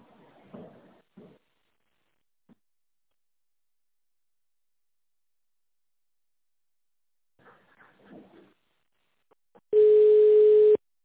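A steady telephone line tone sounds while a call is being connected to a reception desk. It comes in as a single flat tone of about one second near the end, after long silence broken by a few faint, scattered noises.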